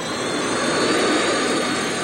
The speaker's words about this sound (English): Engaging the thrusters, Han veered the ship through an abrupt climbing bank.